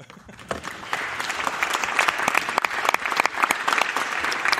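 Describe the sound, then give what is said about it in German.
A live audience applauds at the 35th Chaos Communication Congress in Leipzig. Clapping swells from a few hands into dense, sharp, continuous applause that holds loudly to the end. “Wie man merkt, wir sind hier in einer Live-Situation. Wir sind hier auf dem Chaos Communication Kongress, äh, und zwar dem 35. in Leipzig. Und äh, man hörte jetzt unser Publikum.”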